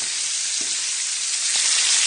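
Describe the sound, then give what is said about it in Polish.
Duck pieces frying and spattering in a pan as they are turned, a steady bright sizzling hiss with a few faint pops, no voices. “Przewracam teraz te kaczuchy. Tryskają jeszcze, więc trzeba uważać, żeby się nie poparzyć.”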